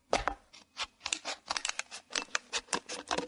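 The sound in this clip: The top is being cut off a plastic bottle: many quick, crackling snips and crunches of plastic in an irregular rhythm, fairly quiet and alone.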